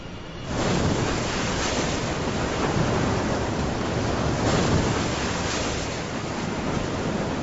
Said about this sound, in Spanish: Un huracán. Hombres, animales y plantas sufren la violencia del viento y del mar.